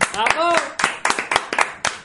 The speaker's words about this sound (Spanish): Un aplauso.